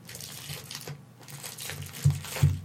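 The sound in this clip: Foil wrapping on a block of Bavarian Limburger cheese crinkles as it is opened: faint, continuous rustling with two sharper, louder crackles near the end.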